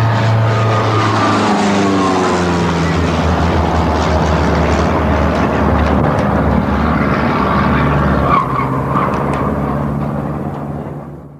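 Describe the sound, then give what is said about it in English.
A small propeller plane roars loudly and steadily while diving repeatedly toward a postal annex beside a Boston channel. The engine drone holds for about eleven seconds and eases slightly at the very end. “That's the sound of a small plane repeatedly diving down out of the sky toward the South Boston Postal Annex along the Four Point Channel, while the pilot fires an AK-47 assault rifle out the window.”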